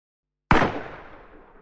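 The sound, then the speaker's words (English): A single gunshot goes off inside a house: one sharp, loud crack that bursts out of silence and then trails off in a long, fading tail. “That shot came from inside the house.”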